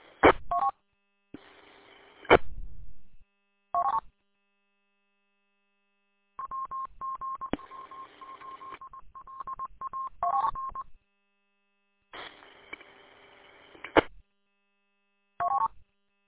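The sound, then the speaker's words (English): A ham radio repeater sends its Morse code identification as electronic tones keyed on and off. The tones come in several groups separated by silence, with brief bursts of radio noise. “Gotta love it when the repeater Morse code decides to interrupt your conversation”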